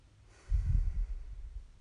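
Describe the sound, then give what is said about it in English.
One slow, deep breath: a soft, breathy rush of air that swells quickly, then gradually tapers off, with no speech. “That's a hand. Deep breath.”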